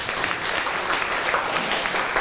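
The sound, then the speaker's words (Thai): Classmates applauding a student in a school classroom, a dense, continuous patter of many hands clapping at a moderate, even level with no pauses. “มีหลักเกณฑ์และแก้ปัญหาได้จริงปรบมือเพื่อนหน่อยครับ”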